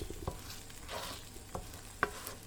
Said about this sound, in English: So now we have the eggs and the brain are moulding together. I'm going to keep stirring so we don't end up with a brain omelette instead of a brain scrambled eggs.